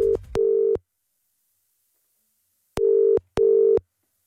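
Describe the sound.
Telephone ring tone on an outgoing call to a hair salon: two cycles of a double buzz in a steady low tone, with a clear silent gap between the cycles.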